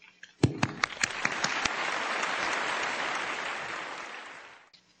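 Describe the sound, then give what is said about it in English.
Audience applause for a speaker just introduced at a talk: a few sharp separate claps swell into dense, steady clapping that holds and then tapers off near the end. “Please give her a round of applause.”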